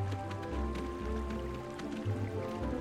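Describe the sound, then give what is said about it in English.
Water moving through an underground stream, heard as a faint, steady trickle with soft drips over a low, continuous rumble, with no voices. “It's the moving water! My friends and I were looking for it. Oh, my! It's under the ground!”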